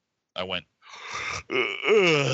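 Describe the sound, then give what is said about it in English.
A person imitates a yawn with the voice: a short voiced groan, then a long breathy exhale, then a drawn-out moaning tone with a wavering pitch. The voice makes the whole sound, and no words are spoken. “Did I just yawn in the middle of this brand new gigantic special effects film?”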